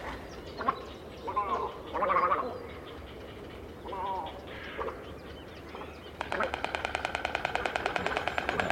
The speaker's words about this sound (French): Donc là, vraiment, on a un claquement de bec puissant, écartement des ailes de l'adulte pour se faire plus gros